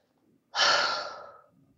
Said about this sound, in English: Take a breath.